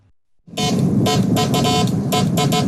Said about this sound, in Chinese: 阳台上传来了电报的滴滴声。这是一台70年代的发报控制箱。